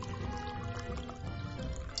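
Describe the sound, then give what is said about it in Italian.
Wine pours into a glass in a steady, continuous liquid stream, with an even rushing and gurgling texture that holds at a fairly constant level for the whole stretch. “Microfono per la patria. No, microfonami per favore sto bicchiere. Ah, vedi come. Non so se sia venuto.”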